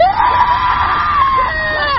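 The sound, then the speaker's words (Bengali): A person screaming loudly, one long high-pitched cry that holds a steady pitch for about two seconds and stays loud throughout. “দাদাকে অভিশাপ দেয়, মাঝে মাঝে জোরে চিৎকার করে।”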